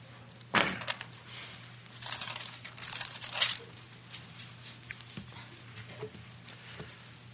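Bible pages turned to Psalm 91 give a few crisp paper rustles, with one clear flick near the start and a cluster of louder riffles in the middle before quieter, scattered page sounds.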